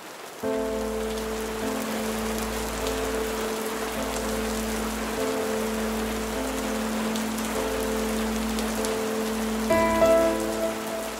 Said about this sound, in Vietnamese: Cơn mưa dần nặng hạt.